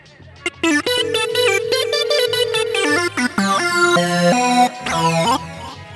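A phone rings with a melodic ringtone: bright, synthetic tones step through a repeating tune of short and held notes, loud and alone, with brief gaps between phrases.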